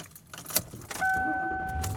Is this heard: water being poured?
no